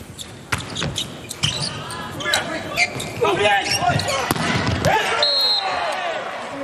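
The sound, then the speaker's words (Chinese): A volleyball is bounced on the court before a serve during a China versus Brazil match. A few sharp thuds cut through constant crowd noise while a commentator talks over them. “中国队现在还落后一分，副攻手李永贞来发球”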